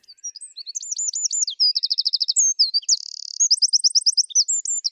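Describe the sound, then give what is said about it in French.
Eurasian wren song: rapid, high-pitched, loud trills and chattering notes, run together as several phrases of quickly repeated pulses with no pause and no voices. “Et ben on va l'écouter, ce troglodyte mignon, puisque vous le proposez en enregistrement sonore.”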